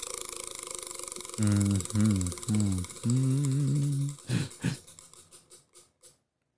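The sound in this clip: A prize wheel ticks rapidly as it spins, its clicks spacing out and fading until it stops; a voice is heard earlier, before the ticking.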